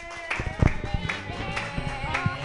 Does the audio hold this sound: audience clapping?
yes